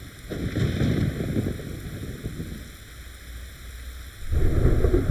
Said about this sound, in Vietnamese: Ngoài trời mưa lớn quá, anh đừng tự mình lái xe đi.